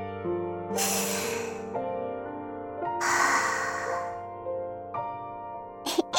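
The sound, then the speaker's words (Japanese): One big deep breath taken at the end of a guided relaxation exercise: a long, airy inhale, a pause, then a slow exhale, all over soft sustained background music. “目を開けたら、大きく一回深呼吸。”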